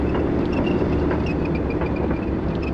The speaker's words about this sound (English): This one projected tanks going down.